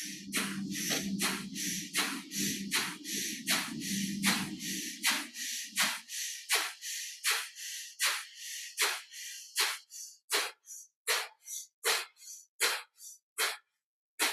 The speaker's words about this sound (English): And now you might feel the inhale and exhale of the Bhastrika more as almost a flapping of the wings a little bit. The rib cage expands out to the side and back in toward the center. So again, up to 27 breaths, Bhastrika.